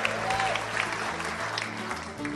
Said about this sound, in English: Give yourself a big applause.